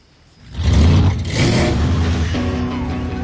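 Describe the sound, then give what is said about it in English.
A car engine revs during a drag race. After a quiet first half second it surges into a loud, throaty roar, then holds a strong, sustained mechanical drone to the end. “So these drag race scenes, they are all based on fact.”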